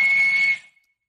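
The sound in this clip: A walrus whistles on land in Svalbard: one sustained, steady, high-pitched whistle blended with rough, breathy noise. It holds for about half a second, then fades quickly into silence.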